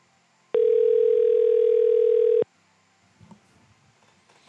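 A single steady mid-pitched telephone tone sounds for about two seconds while a caller tries a number that may be blocked, then cuts off, leaving faint clicks and rustling.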